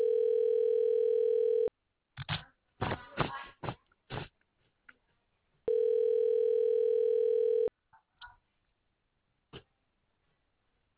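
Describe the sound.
A telephone ringback tone on an outgoing call: two long, steady, even-pitched tones separated by a silent gap of several seconds, with faint rustling and breathing noises in between.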